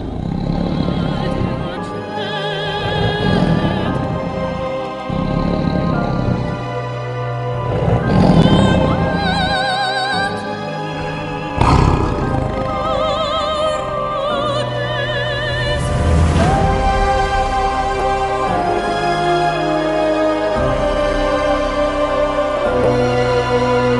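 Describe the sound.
A dragon's roar, loud and drawn out over more than twenty seconds, made of rumbling, growling surges layered with dense tonal sound.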